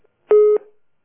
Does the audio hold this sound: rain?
no